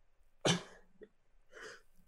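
A single sharp cough bursts out, followed by quieter, breathy throat sounds. It is fairly faint and heard alone, with no talk.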